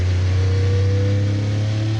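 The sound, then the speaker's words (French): Engine of an 800-horsepower car accelerating out of a hairpin turn, a loud, steady low drone with strong layered harmonics and a rough buzzing edge that holds throughout without a break. “Là, faut faire super gaffe à l'accélération à la sortie du 180. C'est un virage en appui, il y a 800 chevaux à gérer.”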